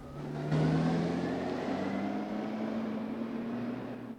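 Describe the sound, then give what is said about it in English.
A car engine accelerating as the car pulls away quickly down a long, winding drive: a steady motor hum that starts abruptly, then rises gradually in pitch and stays fairly loud throughout. “He watches her, sighing, as her car disappears quickly down his long, winding drive.”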